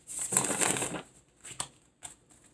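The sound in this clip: Playing cards are shuffled during a card reading: a crisp riffling burst of about a second, then a couple of brief, fainter shuffling rustles.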